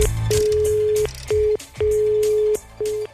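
Telephone call tones from a number being dialed and going unanswered: a steady mid-pitched tone sounds in several bursts separated by short gaps, with faint clicks between them.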